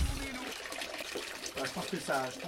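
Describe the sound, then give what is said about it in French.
A small trickle of water flows at a spring fountain inside a little stone enclosure at Saint-Cadou, a faint, steady watery patter with brief talk heard over it toward the end. “Il y a un petit filet d'eau que vous devez entendre qui coule.”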